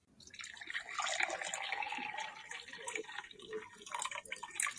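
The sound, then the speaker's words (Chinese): Water splashing in a steady, busy wash of liquid sound, broken by irregular small splashes and drips. It is fairly faint, with no voices. “这是水溅落的声音。”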